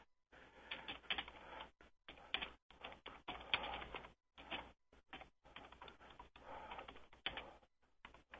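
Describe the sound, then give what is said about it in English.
Faint typing on a computer keyboard as a live message is entered, with irregular bursts of clicking keystrokes broken by short pauses. “I'm just going to type a live message in now.”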